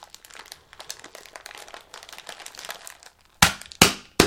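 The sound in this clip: Crinkly material with a seam being folded over: many small, quiet crackles and rustles, then three loud, sharp crinkling bursts close together at the end.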